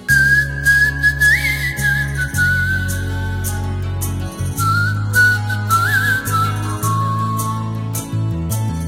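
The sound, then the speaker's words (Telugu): A person whistles a melodic tune of clear, sustained notes that glide up and down over low, steady backing tones, to set a melody for someone to sing to. “ఇప్పుడు విజిల్తో నేను tune ఇస్తాను, నువ్వు దానికి పాట పాడాలి, సరేనా?”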